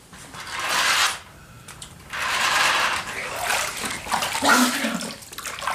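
Water splashes as someone washes their face, coming in a few noisy, hissing bursts with brief quieter gaps between them. The splashes are moderately loud, with small wet clatters mixed in.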